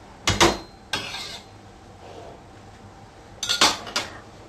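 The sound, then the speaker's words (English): Spoon clinking and scraping against a pot as curry is stirred before simmering, a few sharp metallic clatters in two short bursts separated by a quieter stretch. “I'll give this a good stir and then let it simmer for approximately 20 minutes.”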